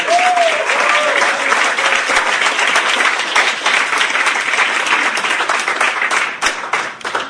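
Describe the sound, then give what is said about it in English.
Loud audience applause at a poetry reading event welcomes a poet to the stage. Dense, steady clapping continues for the whole clip without a break. “let's give a huge hand to welcome up Ailish Hopper.”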